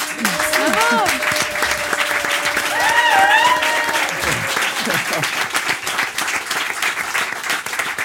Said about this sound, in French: Elle lance sur le ring, une ovation pour Sarah Ouramoun.